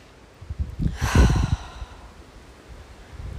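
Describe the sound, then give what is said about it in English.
A single deep breath, one breathy rush lasting about a second that swells and fades, alone with no talk. “I want you to take a really deep breath in.”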